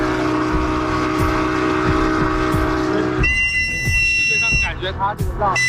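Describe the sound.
A motorized assault boat's engine drones steadily as it accelerates, towing rescuers through fast water during swift-water rescue training. The loud rumble sits under rushing water noise, and clear whining tones appear in the second half.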